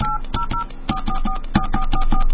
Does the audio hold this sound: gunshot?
no